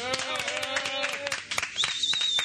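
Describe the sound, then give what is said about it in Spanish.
Audience applause: many irregular claps rising and thinning over a couple of seconds, with a sustained high tonal sound running through and a few other voices or noises mixed in. “Señoras y señores, un aplauso para el gran Quinito Lo.”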